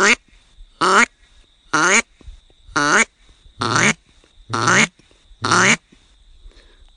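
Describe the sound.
Seven loud, raspy quacks come from a handheld duck call, shaped by hand movements and a little voice. They are evenly spaced about a second apart with short silences between, and quiet follows at the end.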